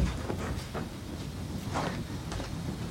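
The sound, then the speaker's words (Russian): A train comes to a stop with a low, continuous rumble and faint scattered clanks. The sound stays fairly quiet throughout. “Кеша останавливает поезд.”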